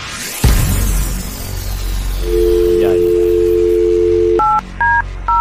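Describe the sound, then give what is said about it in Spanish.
A phone number dialed for a prize call: a sharp click, then a steady dial tone for about two seconds, followed by a few short touch-tone keypad beeps, with no talk. “vamos a marcar en vivo ahora mismo.”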